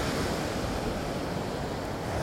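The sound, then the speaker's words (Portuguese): Ocean waves washing onto the shore and drawing back into the sea make a steady, unbroken surf hiss with a low rumble underneath, even in loudness and with no voices. “Você observa o quebrar e o retornar das ondas para o mar.”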